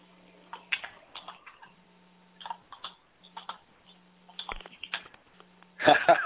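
Typing on a computer keyboard: irregular bursts of light clicks and taps over a faint low hum, ending in a louder burst of sound.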